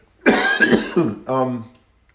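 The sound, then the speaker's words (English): Throat clearing and coughing: a couple of rough, loud coughing bursts in quick succession, then a shorter voiced throat-clearing sound, with no talk around them. “excuse me, I've got something in my throat.”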